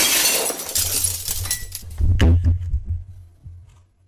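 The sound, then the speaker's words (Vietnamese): Something shatters with a sharp, glassy break as a man trips and falls. A low, steady rumble follows and carries on for several seconds, like an object rolling across the floor, then fades out. No one speaks. “Một tiếng bể, kèm theo đó là một tiếng cái gì đó lăn lăn lăn.”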